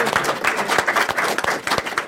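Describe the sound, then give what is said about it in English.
Audience applause with brisk, overlapping clapping that holds at a steady, moderate level. “Let's give them a round of applause. Yay!”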